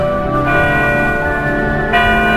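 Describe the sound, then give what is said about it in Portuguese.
Church bells ring during a church service, sustained metallic tones with rich overtones that swell again with a couple of fresh strikes, steady and fairly loud with no voices. “Tá fraquinho esse sino, põe outro ali, mais forte.”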